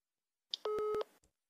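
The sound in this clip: An outgoing mobile phone call tone: a short, steady electronic tone with a brief beep just before it and a faint click after, quiet and on its own.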